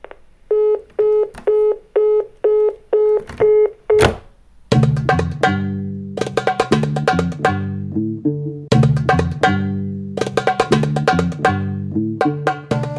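A telephone line tone after a call is disconnected: a string of short, evenly spaced beeps at one steady pitch, followed by a loud sequence of repeated tonal notes.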